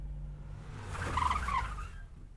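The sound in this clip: A car pulls up and stops at a street lamp: a steady low engine rumble swells to a brief tire-and-engine surge mid-clip, then eases and fades as the vehicle comes to rest.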